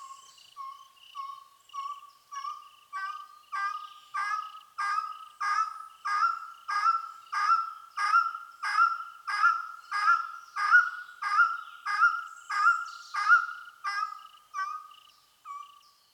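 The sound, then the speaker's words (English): A long-tailed wood partridge (Dendrortyx macroura) calls from forest undergrowth with a long, rhythmic run of many repeated mid-pitched notes that swell steadily in loudness, then fade at the end. “That's the sound of Dendrotyx macroura, the long-tailed wood partridge. Some ornithologists call it the long-tailed wood quail.”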